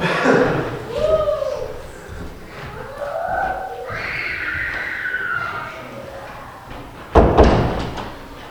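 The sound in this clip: A door slams shut with a single loud, sharp thud near the end, after a long stretch of muffled, shifting voices.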